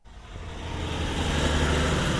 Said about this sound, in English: I'm standing on the side of a mountain road trying to avoid a steady stream of heavy truck traffic.